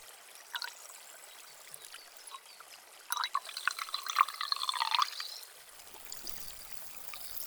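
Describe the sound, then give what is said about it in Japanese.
Carbonated water poured again to wet a cotton swab for ear cleaning: a thin trickle with occasional drips, then a louder fizzing pour lasting a couple of seconds before it fades back to quiet dribbles. “もう一度炭酸を足して、”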